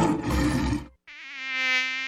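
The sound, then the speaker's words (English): A mosquito's thin, steady whining buzz with a bright, even tone. It follows a short burst of loud rushing noise and a brief silent gap. “Don't let ticks and mosquitoes suck the fun out of your summer. It's mosquito season, and Arbor Armor”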